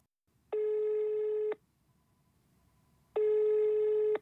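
The ringback tone of an outgoing telephone call sounds twice. Each ring is a steady, buzzy electronic tone lasting about one second, separated by roughly a second and a half of near silence with faint hiss.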